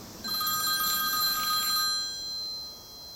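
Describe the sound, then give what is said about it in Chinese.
An electronic telephone ring sounds from an incoming call: one sustained, high, warbling ring burst that lasts about a second and a half, then fades to quiet room tone. “不好意思，我接个电话。”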